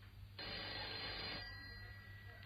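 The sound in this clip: A telephone rings in a home after going unanswered all morning: a single burst of bright, bell-like ringing lasting about a second, then a quieter tail over a low steady hum.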